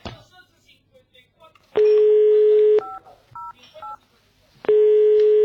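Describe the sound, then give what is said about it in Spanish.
Touch-tone telephone dialing of a phone number: a few short two-note keypad beeps fall between two longer steady tones, all loud and clear over faint background noise. “La llamo de nuevo, dame el número.”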